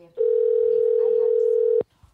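A telephone dial tone sounds while a caller is being dialed: one steady, clean, mid-pitched tone that holds for about a second and a half, then cuts off abruptly into near silence.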